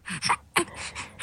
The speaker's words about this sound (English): A mum trying to distract her baby as he struggles with his breathing.